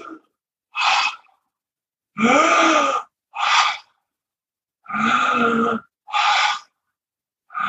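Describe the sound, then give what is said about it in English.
Rhythmic breathing during a guided breathwork exercise, with forceful pulled inhales and released exhales. A series of loud breaths, some rough and groan-like, alternate with short pauses and no talk. “Now let's take 5 breaths together. Inhale.”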